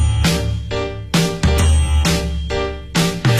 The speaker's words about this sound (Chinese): 门铃声叮叮咚